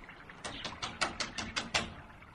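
Eight quick, evenly spaced knocks rap on a door in a steady rhythm, fairly soft and alone, each a crisp dry tap.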